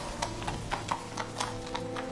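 Horses' hooves clip-clop in a steady, even rhythm of repeated light strikes, fairly soft over a low background hum, with no talking.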